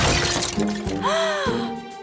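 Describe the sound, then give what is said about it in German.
Tree branches break under a heavy load of snow after a frosty night: a loud, sharp shattering crack followed by ringing, wavering tones. “Heute Nacht hat es gefroren und geschneit. Und zwar so stark, dass einige Äste unter der Schneelast einfach abgebrochen waren.”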